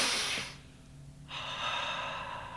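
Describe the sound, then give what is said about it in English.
Deep breaths drawn during a breathing-exercise demonstration: two long, airy rushes of breath separated by a short pause, with no talking. “But I can give you an example. Couple of deep breaths.”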